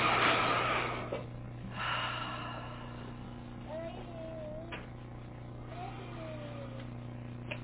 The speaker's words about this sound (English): take three nice deep in and exhalations to relax our nervous system and our calm down a little, relax our body. So you can even do them nice and audibly through the mouth. So inhaling.